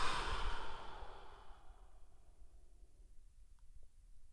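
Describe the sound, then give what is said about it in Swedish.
A slow breath out through the mouth during a guided breathing exercise, in through the nose and out through the mouth. It starts loud and airy and fades steadily over a few seconds, with no talking. “Och vi kan väl börja med att ta några andetag där vi bara landar lite till den här platsen där vi nu är. Så kanske in genom näsan och ut genom munnen.”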